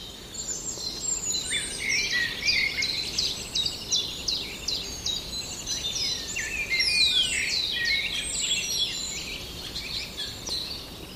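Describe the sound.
A songbird imitating a linnet's song, delivering a continuous stream of rapid, varied, high twittering chirps and trills that runs throughout, over a faint steady background hiss.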